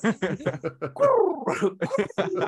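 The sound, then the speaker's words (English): A human voice imitates a pigeon with a run of short, throaty cooing syllables, broken in the middle by one longer call that glides downward in pitch. “That was a pigeon, wasn't it? I know it was a pigeon.”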